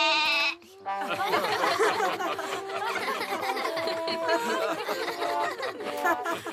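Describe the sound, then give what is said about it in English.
A goat bleating on a theatre stage, a short wavering cry at the start, followed by a dense, busy wash of laughter and voices. “The goat's gotten confused. I have to get it off the stage.”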